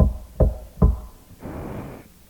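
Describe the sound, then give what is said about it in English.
Knocking on a wooden door barred at night with a log slipped through iron rings: a few dull, heavy, low thumps spaced evenly, followed by a softer, sustained rushing noise. “Knock again.”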